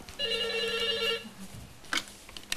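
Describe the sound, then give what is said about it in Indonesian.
A telephone rings once, a steady bright tone with several layered pitches lasting about a second. Then it cuts off into low background noise with a brief soft knock. “Tuh telepon.”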